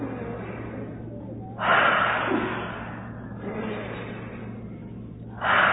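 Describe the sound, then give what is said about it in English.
Deep breaths drawn in through the nose and pushed out through the mouth, taken together as a calming exercise against a hot flash. Loud, breathy rushes of air stand out, with softer airflow between them over a low steady hum. “take a big breath through the nose. So let's all do that together. Big breath. And out through the mouth. In through the nose.”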